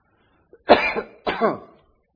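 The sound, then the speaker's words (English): Two coughs, each a rough, throaty burst, the second following shortly after the first, heard alone with no talk. “Excuse me. That's not a COVID cough.”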